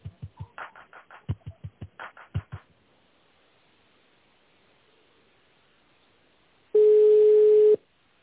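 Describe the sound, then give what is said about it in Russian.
Telephone line tones while a call is being transferred: a rapid series of many short beeping pulses, a stretch of near silence, then one loud, steady tone lasting about a second. “Давайте соединю вас в канцелярии, ожидайте, пожалуйста, на линии.”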